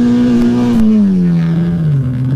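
Race car number 128 passes at speed through a bridge section of the course, its loud engine a continuous drone whose pitch drops steadily as it goes by.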